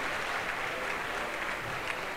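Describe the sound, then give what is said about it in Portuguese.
Audience applause for 55 retreat participants standing to be recognised: a faint, steady patter of many hands clapping without a break. “Daí, uma salva de palmas para eles.”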